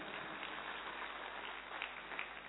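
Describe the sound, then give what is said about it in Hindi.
Applause from an audience after a stage performance, a dense, continuous patter of clapping held at a steady, moderate level throughout. “एक बार फिर पुनः जोरदार तालियां”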